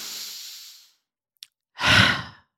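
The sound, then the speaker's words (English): A deep breath, with a long airy inhale followed after a short pause by a loud, breathy sigh as the air is let out. “Let me just take a deep breath real quick.”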